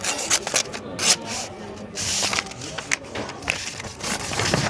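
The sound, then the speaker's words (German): Paper rustles and scrapes as a waiter hands over a sealed envelope in a café, a series of uneven brushing and crinkling bursts of moderate loudness. “Ein Kellner kommt und übergibt ihm einen verschlossenen Umschlag.”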